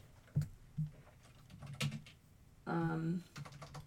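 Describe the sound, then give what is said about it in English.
Typing on a computer keyboard: a few sparse, soft keystroke clicks spaced out over several seconds, with a short stretch of a voice in the second half. “I'll just type in WJRH...”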